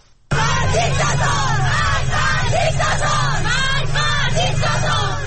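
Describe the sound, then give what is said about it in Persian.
Schoolgirls chant protest slogans in unison after removing their hijabs at school and in the street. The loud, steady, rhythmic group chant of young voices runs throughout. “صدای دختران دانش آموزی که با برداشتن حجاب در مدرسه و خیابان شعار می دهند.”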